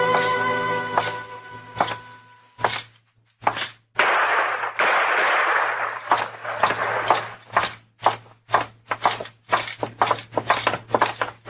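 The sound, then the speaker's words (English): Gunshots ring out in a saloon shootout, staged as a radio drama sound effect: a held musical tone opens, then many loud, sharp cracks burst in rapid, irregular succession. “Trimble come in, tried to shoot Cam Spiegel, and Cam killed him. Trimble drew first, Mr. Dillon, but he just wasn't fast enough.”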